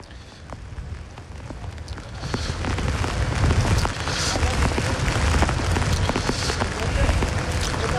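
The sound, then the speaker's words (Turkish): Heavy rain pouring down in a downpour over Gaziantep after a storm, a dense, steady hiss that thickens after the first few seconds and stays loud and even to the end. “Şu anda da yağmur yağışı yaklaşık 5 dakika önce başladı, sağanak bir şekilde devam ediyor.”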